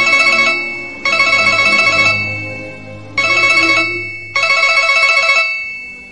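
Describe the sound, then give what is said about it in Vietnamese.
Electronic telephone ringtone trilling in four loud bursts, the first cut short, each a buzzy warbling ring separated by brief gaps, with no voices. “Điện thoại lại reo chuông.”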